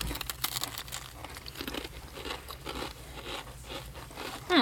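Crisp biting and crunching into heart-shaped gingerbread biscuits, a dense run of many small crackling snaps and crumbly clicks at a steady moderate level with no talk.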